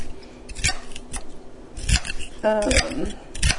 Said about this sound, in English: And after seeing Peter's reaction, I'm probably cutting up way too much celery.